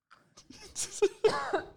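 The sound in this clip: A person is coughing and clearing their throat, with something caught in the throat. There are a few short, harsh bursts in quick succession, some with a rough voiced edge.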